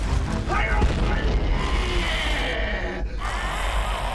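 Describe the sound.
A secret military weapon going off with a deep, loud roaring boom that rumbles and crashes on through the whole clip.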